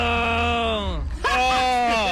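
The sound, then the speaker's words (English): A man groaning in pain: two long, drawn-out voiced groans, loud and strained. A brief break separates them, and the first sinks slightly in pitch toward its end. “This guy. He's just groaning in pain now.”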